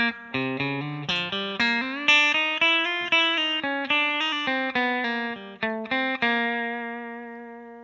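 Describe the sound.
Guitar lick played chromatically, fingers walking fret by fret from the 3rd to the 5th fret on the A string: many quick, clean plucked notes in an even rhythm, the final note left to ring out and fade.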